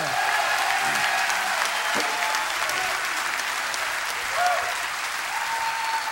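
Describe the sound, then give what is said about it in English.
Audience applause for a chamber choir at a choral concert: loud, dense, sustained clapping that stays level from start to finish. “Let's hear it for the Dessoff Chamber Choir. Come on.”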